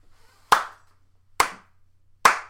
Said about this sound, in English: That's the sound of my hands clapping.